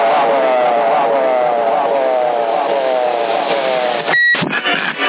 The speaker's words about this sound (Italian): E quello che apparato è però? C'è il bip lungo, non è un 48, no?